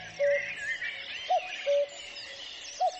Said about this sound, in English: Listen out for the bird noises in this clip and see if you can identify which bird he's talking about. What should you do when you hear its call? One of my favourites is the cuckoo.